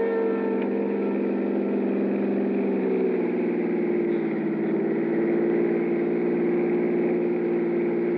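A car engine running in a radio drama sound effect, a smooth, continuous mid-pitched drone that stays loud and even throughout, easing slightly lower partway through, with no voices.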